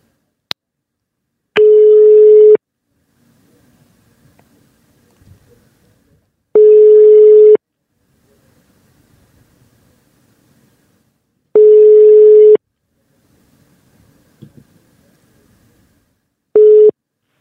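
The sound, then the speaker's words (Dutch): Ringing tone of an outgoing telephone call: four steady one-second beeps repeating about every five seconds, the last cut short, with near silence between them and a faint click at the start. “Maar we gaan eens even bellen met Justin om te kijken wat hij ervan vond.”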